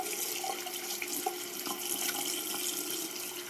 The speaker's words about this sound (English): I went to the back and thoroughly washed my hands.